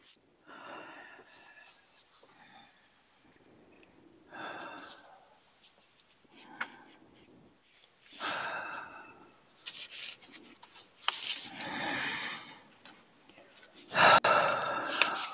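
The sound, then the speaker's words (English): Deep breathing during a guided healing exercise: several slow, airy inhales and exhales of uneven length, rising and fading in soft breathy bursts, with no talking between them. “And take three nice deep breaths.”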